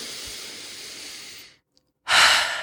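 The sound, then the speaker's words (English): A collective deep breath: a long, airy stretch of breathing, a short silence, then a louder, shorter rush of breath that fades out. “let's all just take a collective deep breath.”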